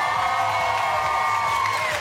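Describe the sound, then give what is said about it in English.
Noisy audience cheering with whoops and high-pitched screams at a 2002 television interview with a pop star in the UK. The shrill crowd noise is loud and continuous throughout. “you may notice that the audience are a little bit noisy. It's because I've been joined by Miss Britney Spears.”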